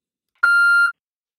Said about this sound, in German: der Anruf war auf einmal abgebrochen